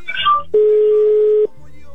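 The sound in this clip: Telephone dialing tone on a call placed from a radio station: a single steady, clear electronic tone held for about a second, with brief faint tones and noise just before it and a low hum afterward.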